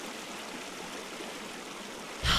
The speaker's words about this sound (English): Maybe if I get back on my tube and float with the river, I can spot my goggles. Stand still and face the current.